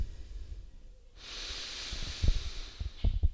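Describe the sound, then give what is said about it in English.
A deep breath in is drawn as a long, soft, airy inhale lasting about two seconds after a brief silence, with a few low bumps underneath. No speech accompanies it. “Take a deep breath in.”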